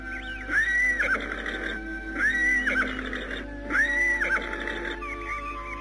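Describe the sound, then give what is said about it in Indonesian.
Horses neigh as they are led on foot toward a palace gate. Three loud, shrill whinnies come at roughly even intervals, each rising and then wavering, over a steady background with faint low hoof sounds. “Anting Wulan bersama dengan keluarganya dan Lastri menuntun kuda mereka hingga ke pintu gerbang istana”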